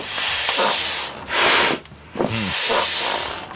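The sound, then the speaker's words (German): A foot pump inflates an inflatable pool animal, giving a series of strong, breathy hissing puffs of air with short pauses between them. “Wir pumpen ein Schwimmtier auf. Mir tut jetzt schon das Beinchen weh. Das ist eine jetzt blöde Pumpe. So. Das ist eine und Draufsteigpumpe.”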